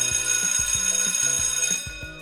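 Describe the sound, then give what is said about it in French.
An electronic school bell at a collège near Lyon rings for the end of class, a loud melody of stepped chiming tones over a steady high tonal hum, then cuts off near the end. “C'est la sonnerie qui sonne la fin de la classe ou des cours.”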